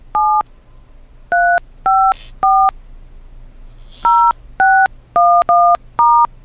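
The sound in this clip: Telephone keypad tones entering a number into a voicemail system: nine short, steady beeps in an uneven rhythm, with a longer pause partway through, each tone clear and loud.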